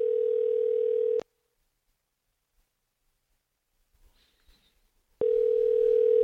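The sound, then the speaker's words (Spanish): Ringback tone of an outgoing phone call to someone in Oregon: a long, steady, mid-pitched ring, several seconds of near silence with a few faint clicks, then a second long ring. “Están llamando a Mayra de Oregón.”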